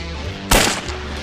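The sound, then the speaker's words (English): A single gunshot fired while shooting at clay targets: one sharp, loud blast that stands out clearly from a quiet background and fades over a brief tail. “Me and my father started shooting, and neither of us have that much experience with guns.”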